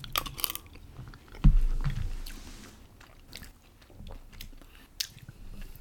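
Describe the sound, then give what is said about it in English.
People take bites of chili together, a crisp bite followed by soft, intermittent chewing and squishing noises, with no talk. “You want to take a bite at the same time? Yeah, ready? Let me get this bite in there.”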